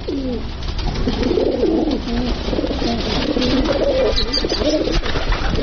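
Pigeons cooing in a continuous run of soft, low, rolling calls that overlap one another over a steady background hiss, with no voices.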